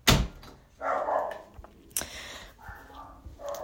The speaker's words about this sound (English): I wonder if you can hear my dogs in the background. They're barking.